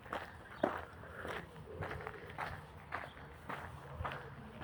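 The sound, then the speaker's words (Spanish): Footsteps of someone walking through a forest: a steady run of soft crunching steps at roughly two per second, evenly paced and moderately quiet. “Escucharéis pasos, porque voy caminando por un bosque”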